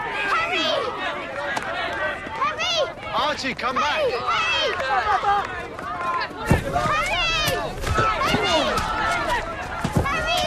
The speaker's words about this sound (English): They come out onto a sports field where the boys are playing rugby. Artie runs away.